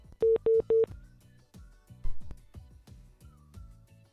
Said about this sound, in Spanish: ¿Por qué me cuelgan? No entra la llamada, no, no, no da la señal.